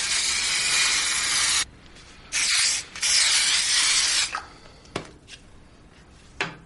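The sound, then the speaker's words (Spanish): Aerosol deodorant sprayed onto armpits and torso: a few loud, steady hissing bursts, the longer ones first, then shorter, softer puffs with faint rustling in between and no talking. “Se echa desodorante en las axilas y continúa por el torso.”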